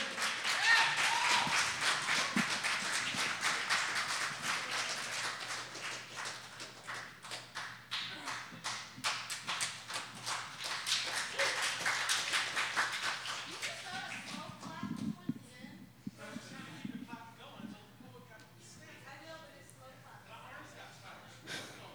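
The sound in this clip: Applause for a poet at an open mic night: a small crowd claps quietly for roughly the first half, then the clapping thins and a voice begins speaking.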